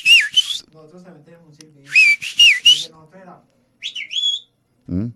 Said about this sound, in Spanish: Oye, ¿y ese pito?